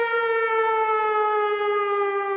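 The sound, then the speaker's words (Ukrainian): An air-raid all-clear siren in Volyn, Ukraine, sounds one continuous, loud wailing tone with rich harmonics, its pitch drifting slightly downward throughout. “Увага, Волинь. Відбій повітряної тривоги.”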